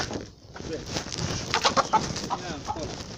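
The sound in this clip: Hens clucking in a flock: many short, rapid clucks and bursts of cackling over a steady, noisy background.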